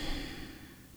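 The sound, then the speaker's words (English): A full exhale of breath: a soft, airy rush that slowly fades over about a second, with no talking. “So inhale and hold. And then exhaling fully.”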